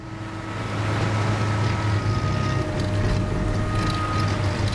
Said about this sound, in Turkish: Sen de duydun mu? Motor tekliyor. Şu lanet olası yakıt filtresi yüzünden. Motorun devri düşüyor.